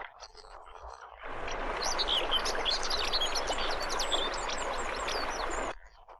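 Bird calls attributed to a Eurasian curlew over marshy wetland: many short, high chirps and whistles in quick succession over a steady hiss. They start abruptly after a quiet first second and cut off shortly before the end.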